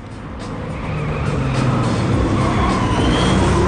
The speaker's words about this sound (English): Then their attention is drawn to four souped-up cars coming round the corner.